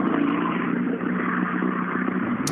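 A rally car driving off after a rally stage: a loud, steady engine drone with revving, heard alone.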